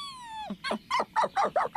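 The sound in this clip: A dog whines with a drawn-out, falling tone, then follows it with a quick series of short, rhythmic yelping bursts.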